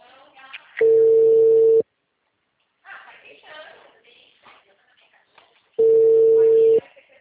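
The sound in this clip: Ringback tone of an unanswered phone call: two long, steady mid-pitched tones about five seconds apart, with people talking in the gap between them.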